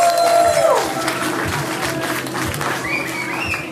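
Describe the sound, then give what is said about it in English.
An audience applauds and cheers to welcome a guest at a live pop culture game show at a convention. Dense clapping and crowd noise fill the whole stretch, with a shout and some voices mixed in. “Everyone, welcome. Give it up for Lawrence Burgess.”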